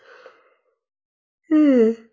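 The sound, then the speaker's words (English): A person yawns: a faint breathy sound, then a pause, then a short, loud voiced yawn lasting about half a second with its pitch sliding downward. “By the way, when I yawn, it doesn't mean I'm tired.”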